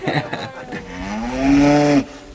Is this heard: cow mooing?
yes